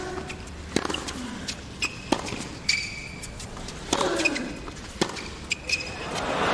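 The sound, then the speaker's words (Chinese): Tennis ball struck with defensive one-handed backhand slices during a professional match, several sharp pops of racket hits and bounces spaced through a steady background murmur. “可惜了啊，两个带有防御性质的一个反拍单手的切球。”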